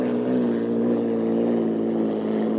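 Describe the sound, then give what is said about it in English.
Racing boats cross the start-finish line and swing into the infield, giving a sustained, droning engine roar with a strong low hum. The roar holds steady throughout, with no talk. “You're looking at the Budweiser, which is coming right across the start-finish line now and swinging into the infield.”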